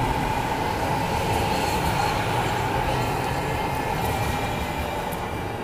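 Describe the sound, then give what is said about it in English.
A train passes with a steady, heavy rumbling roar that holds at a constant loudness for the whole few seconds, with no talk over it. “Whoa, whoa. That's a train.”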